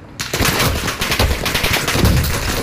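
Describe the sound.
Rapid automatic gunfire in a video game, dense overlapping bursts of sharp shots running loud and continuously throughout.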